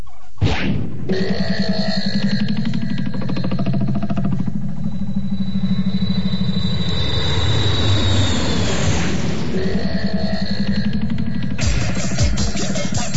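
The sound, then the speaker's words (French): An airplane engine warming up, giving a steady, loud droning roar that holds throughout, with a thin high whine rising over it partway through before the drone carries on unchanged. “Tu fais chauffer l'avion, s'il te plaît ? Ok, ça roule.”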